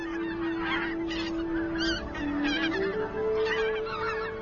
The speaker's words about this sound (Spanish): Cuando llegan las bandadas de gansos, el invierno en el valle de Biepsa toca lentamente a su fin.